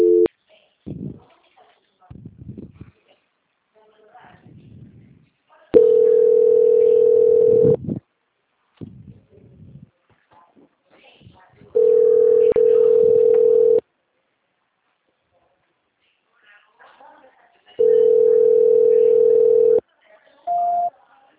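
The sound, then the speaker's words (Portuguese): A telephone line tone plays while a call is on hold for transfer: three long, steady tones evenly spaced with lengthy pauses, with faint scattered sounds in the gaps and a short final tone at the end. “Eu peço que o senhor aguarde que eu vou transferir, tá bom, seu Nelson?”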